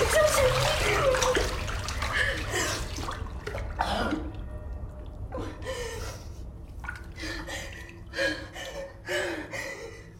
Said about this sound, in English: shoots up from the water, dripping with dirty water